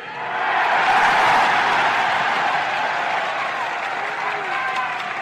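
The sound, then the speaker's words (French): Long, intense applause and cheering from a large crowd in Montreal, an emotional ovation following a political speech. The dense clapping holds steady and loud throughout with a slight fade near the end. “La longue ovation mêlée d'émotions est intense.”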